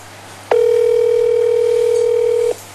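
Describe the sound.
A steady telephone dial tone plays while a university rector is being called: one continuous, unbroken, loud tone lasting about two seconds, with no talk over it.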